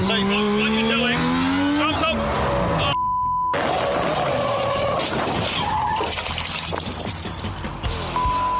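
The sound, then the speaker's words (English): Tire squeal and engine noise from a Mazda RX-7 doing a wheel burn, a loud sustained screech with shifting tonal whines. It cuts out briefly around three seconds, then returns as a dense, rough roar. “watch Rog write off a RX-7 on wheel burn and cause $47,000 worth of damage”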